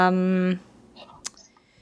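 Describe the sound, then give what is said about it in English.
A single sharp computer mouse click sounds, short and crisp, coming after a brief voice and a quiet pause. “Okay, let me just click on this.”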